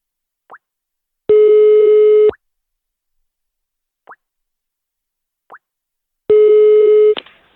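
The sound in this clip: Telephone line tones while a call is placed: two steady, flat tone bursts of about a second each, separated by stretches of silence broken by three short, soft blips.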